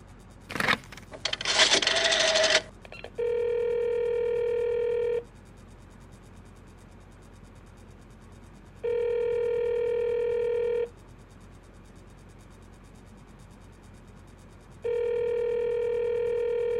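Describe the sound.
A telephone: a short burst of clattering handling noise, then three long, steady electronic ringing tones at a moderate pitch, separated by even pauses of silence.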